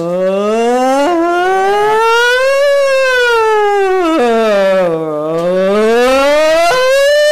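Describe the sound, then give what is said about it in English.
Warning siren wails loud and alone, its pitch sweeping slowly up and down in repeated rising and falling cycles without a break. “So it was each time that the siren went off”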